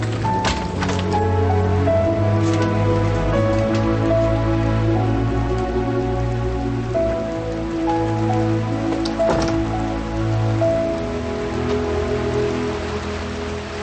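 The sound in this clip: Steady rain falling with no break, a continuous dense hiss that holds an even, fairly loud level across the whole stretch, with no voices.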